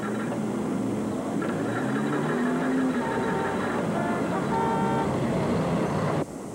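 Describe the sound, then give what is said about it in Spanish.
A car horn honks in traffic, sounding several steady tones of differing pitch over a dense, rumbling background of road noise, which drops off abruptly just before the end. “¡No me toques la bocina, maldito desconsiderado!”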